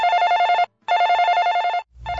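Telephone bell ringing in a few long, bright, steady bursts separated by short silences, with a new ring starting at the end.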